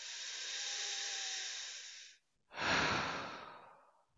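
Two long, soft breaths, the first a smooth airy hiss and the second a fuller, rushing breath that fades out, heard alone.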